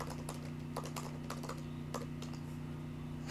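Faint typing on a computer keyboard during a web search, scattered light keystroke clicks in short irregular bursts over a steady low electrical hum, with no voices.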